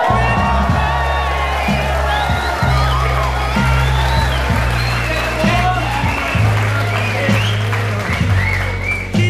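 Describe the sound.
An audience applauds and cheers to welcome performers onto a stage. The clapping and whoops form a steady, loud wash that lasts throughout, with voices mixed into the crowd noise.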